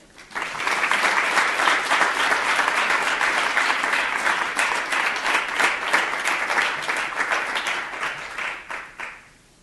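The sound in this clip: Warm audience applause welcomes a guest speaker at a Stanford lecture on trafficking of women in Eastern Europe. The dense, even clapping holds for about nine seconds, then thins and fades out.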